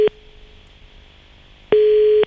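Telephone tones when dialing a number again: a brief beep, then a faint steady tone, then a loud, steady tone lasting about half a second.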